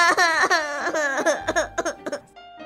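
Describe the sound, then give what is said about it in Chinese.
A little girl cries loudly in drawn-out, wavering wails, which break into short, choppy sobbing bursts toward the end. “竟然哭了起来，还越哭越伤心，越哭越大声。”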